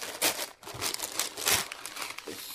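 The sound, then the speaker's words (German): Newspaper crinkles and rustles as a carefully wrapped parcel is opened, with steady crumpling broken by several louder crackling bursts and a short lull partway through. “Das Ganze auch nochmal in die Zeitung eingepackt.”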